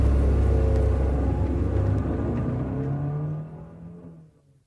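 A car engine roars as the car drives off in Beverly Hills, a loud low rumble that holds briefly and then gradually fades away over a few seconds, with no voices.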